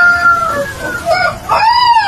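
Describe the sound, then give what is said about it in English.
Rooster crowing in drawn-out, wavering harmonic calls, loud and strained, with a brief break before a final call that arches up and down in pitch. “That's the rooster.”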